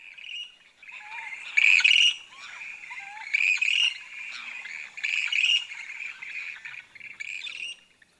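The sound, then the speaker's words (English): Bird advertising calls ring out from a lake colony: a steady run of high, chirping squawks, with several louder bursts of calling standing out over about eight seconds, no voices. “So this is the bird advertising and saying, hey, you know, I'm single.”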